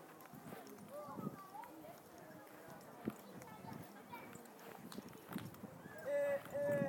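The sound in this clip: Hooves of a horse clip-clopping at a steady jog, a quick, even beat of soft knocks heard under a man's voice.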